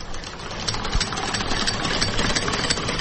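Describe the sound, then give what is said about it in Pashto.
Sewing machine used for home tailoring runs steadily with a fast, even mechanical whirr and chatter at a constant loudness. “ډېر ښه ماشین دی. کارخانه یې متبره ده. دام په مجرد کې اخیستی و. یو څو وخت ما په کور کې خیاطي وکړه.”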